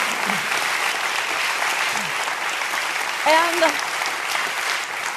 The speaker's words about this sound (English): I am certain that a lot of that applause was for my husband of 35 years.